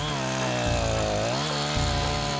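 A chainsaw cuts the felling notch in a spruce tree with a loud, continuous engine whine. Its pitch dips and recovers a couple of times as the chain bites into the wood.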